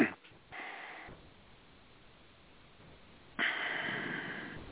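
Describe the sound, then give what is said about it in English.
Deep breaths taken during a meditation: a few soft, breathy whooshes separated by quiet gaps, the last one louder and longer than the others. There is no speech over them. “Take three breaths now.”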